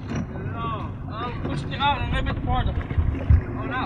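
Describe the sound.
Wind blowing out on the open ocean around an offshore shrimp boat, a low, rumbling buffet that runs steadily beneath people talking.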